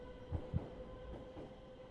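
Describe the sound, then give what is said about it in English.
An underground tube train rumbling past, heard as a faint, steady low hum and rattle with two soft, deep thumps early on. “And as a tube train thundered by”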